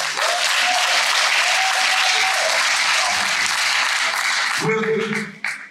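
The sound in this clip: Loud, sustained applause for an honoree at an awards dinner, a dense wash of clapping holding steady for several seconds before tapering off as a voice breaks in near the end.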